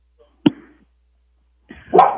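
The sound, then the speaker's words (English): A dog barks twice: a short, sharp first bark, then after a pause a longer, fuller bark. “I apologize for our dog barking in the background.”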